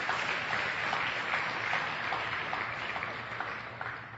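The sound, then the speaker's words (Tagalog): A church audience applauding during a worship service, a steady wash of many hands clapping that tapers slightly toward the end. “Palakpakan natin ang Panginoon.”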